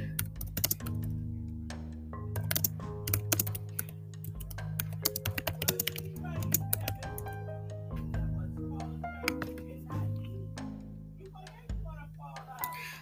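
Keystrokes on a computer keyboard as a search is typed, many quick irregular clicks coming in bursts over a steady humming tonal background.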